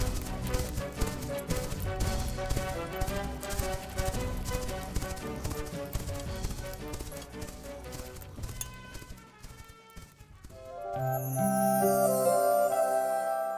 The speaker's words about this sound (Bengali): ঘোড়া ছুটে চলল ছুটেই চলল ছুটেই চলল